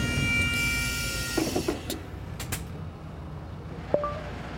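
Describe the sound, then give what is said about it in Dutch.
Train station ambience at Tongeren: a low, quiet rail rumble with a few faint metallic clanks and a brief high squeal near the end. No voices are present. “Ik hoorde het treinstation achter mij.”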